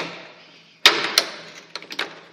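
Sharp mechanical clicks come from a counting mechanism on antique furniture as its hand moves one notch. Two crisp clicks come close together, then a couple of lighter taps follow against a faint background hiss.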